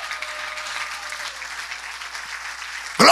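Congregation applauding during a church sermon: dense, steady clapping that fills the whole stretch at an even level, then swells into a louder burst right at the end.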